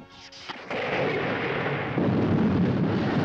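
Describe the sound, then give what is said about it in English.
A laser bolt is fired and vaporizes a globe entering Earth's atmosphere: a sharp blast bursts out, then a heavy, sustained roaring rush grows denser toward the end. “The laser bolt strikes home, vaporizing the globe.”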